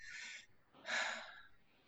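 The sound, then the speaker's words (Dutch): Quick, shallow breaths high in the chest, taken while talking fast: two airy breaths, a short one and then a louder, longer one, fairly faint and with no talking. “Ik ga nu hoog, hoog ademen omdat ik snel praat”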